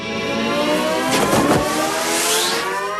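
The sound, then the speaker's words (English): A car engine revs and accelerates in a movie scene of the drive into Toonland, a loud, continuous growl that holds steady with strong tonal layers throughout. “You know what I want to put in? I want to put in, like, the drive in to Toonland.”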